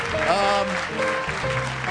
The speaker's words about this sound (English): Don't applaud. Put your hand up if you want to play the quiz. Don't keep applauding. That gets old.